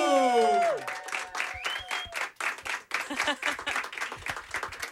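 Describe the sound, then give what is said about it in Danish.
A small audience of about a dozen people claps and cheers to welcome a guest in an intimate setting. A brief falling tone opens it, then a dense, steady patter of clapping carries on to the end. “lige nu synes jeg, vi skal lave så meget larm, som 12 mennesker plus det løse kan lave.”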